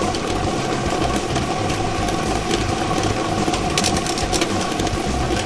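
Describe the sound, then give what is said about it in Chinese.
A lottery ball drawing machine running during a live draw, giving a loud, steady mechanical whirring and rattling drone with no pauses and no voices. “摇奖机已经正式启动了”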